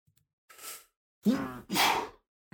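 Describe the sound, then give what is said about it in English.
An odd-sounding human sneeze: a soft breathy intake, then a loud, voiced two-part burst, with a brief noise at the very end. “That was an interesting sneeze.”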